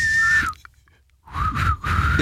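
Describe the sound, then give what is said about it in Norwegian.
A person tries to whistle, making loud, breathy blowing with a thin tone inside the rushing air. There are two attempts with a short quiet pause between them, and the second attempt sounds lower and airier. “du klarer jo ikke å plystre”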